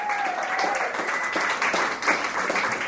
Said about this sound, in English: Clap in your hands and make some noise. Make some noise.